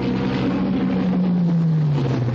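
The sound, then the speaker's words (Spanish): Engine drone of a fishing boat sailing on the open sea in a World War II film scene: a loud, steady rumble with rushing noise, and a low hum that slowly sinks in pitch. “La avioneta se aleja definitivamente. El barco navega en alta mar.”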